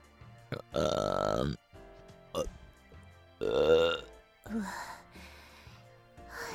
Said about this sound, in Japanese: え、なんでゲップするのかって？しないと気持ち悪くなっちゃうんだよね。